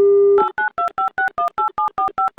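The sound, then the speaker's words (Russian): A steady telephone dial tone gives way to a quick, even run of about ten keypad beeps as a phone number is dialed, each tone short and clearly separated. “Набрали номер телефона Рашида.”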